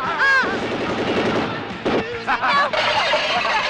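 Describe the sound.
Gunfire breaks out amid tense shouting voices, with sharp bursts of shots cutting through and overlapping the raised speech in a chaotic exchange.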